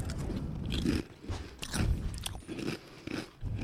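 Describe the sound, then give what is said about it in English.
Crunchy bites into a Deep River sea salt and apple cider vinegar potato chip: several sharp, brittle crunches in an uneven rhythm, loud and close, with no talking. “I'm trying the chip.”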